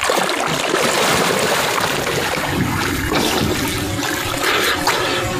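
Loud, continuous rushing and splashing of river water as a firefighter steps down into a river during a water-safety demonstration, a dense churning wash with no voices.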